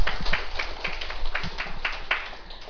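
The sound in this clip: Audience applause for novice monks during a temple talk, a wash of scattered claps over steady background noise that continues throughout.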